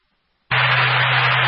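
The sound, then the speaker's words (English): A fire alarm set off by accident during maintenance work blares in suddenly after brief silence, a harsh, continuous buzzing tone held loud and steady to the end. “Sounds like this was an accident alarm set off for some maintenance that was being done.”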